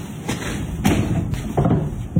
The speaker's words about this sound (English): Open the curtains 30%, just so you have enough access to the shutters. Okay. Now, open the shutters.